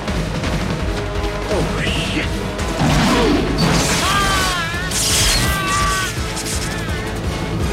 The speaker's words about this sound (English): Mike grabs a shotgun and shoots Fergie in the chest, blasting him back into an electrical panel.